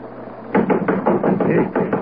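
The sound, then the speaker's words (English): Rapping knocks on a window: a quick run of many sharp taps that starts abruptly after a quiet moment and keeps a fairly even, brisk rhythm to the end. “There came a rapping on the window.”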